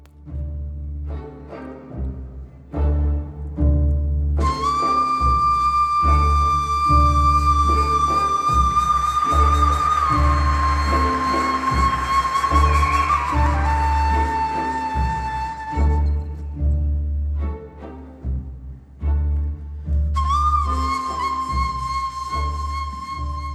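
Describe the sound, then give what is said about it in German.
Ney flute plays long, sustained breathy notes over a steady percussion rhythm in a modern Syrian orchestral piece mixing Western and Arabic music. The drums start alone, the flute enters, drops out, then returns near the end. “Das ist also die Nai, diese Flöte, von der wir schon gesprochen haben.”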